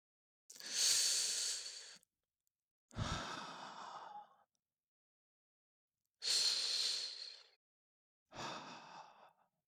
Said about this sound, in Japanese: 深呼吸するよ。